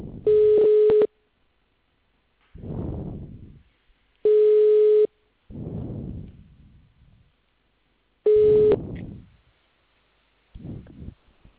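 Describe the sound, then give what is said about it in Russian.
Telephone keypad tones dialing an extension number on a phone service line: three steady electronic beeps, each under a second, evenly spaced, with short bursts of rustling noise between them. “Для связи с исполнителем наберите добавочный номер.”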